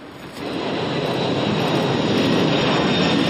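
An airplane flies with a broad, steady engine roar that swells quickly at the start and then holds loud and level, with no voices.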